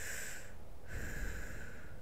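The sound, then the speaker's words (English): A faint, airy breath, heard as a continuous soft hiss of air with a brief dip midway through. “remove the layers, slow down, take a breath, baby.”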